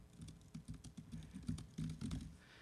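Typing on a computer keyboard, entering text into an OpenSSL connection in a terminal: a quick, irregular clatter of many keystrokes that runs steadily throughout over a low background hum.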